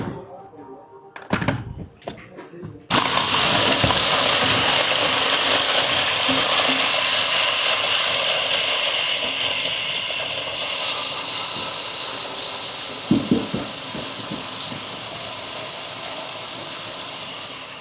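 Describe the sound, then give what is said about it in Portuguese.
A food processor crushing biscuits starts after some brief clatter, then settles into a loud, steady whirring roar. The roar continues for about fifteen seconds and eases slightly toward the end, with a few knocks near the close. “Vamos levar ao multiprocessador a bater.”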